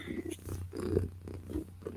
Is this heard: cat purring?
yes

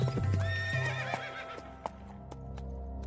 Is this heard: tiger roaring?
no

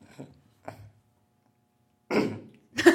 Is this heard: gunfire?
no

